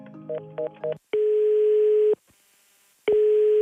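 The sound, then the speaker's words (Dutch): Telephone tones while calling a national football association: a few short dialing beeps, then a steady, sustained call tone that stops, a brief pause, and the same tone starting again. “Ja, misschien moet ik even de KNVB bellen.”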